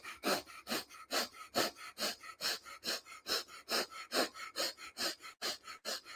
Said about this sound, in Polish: Widzicie, usta zamknięte, liczę tylko wdechy nosem.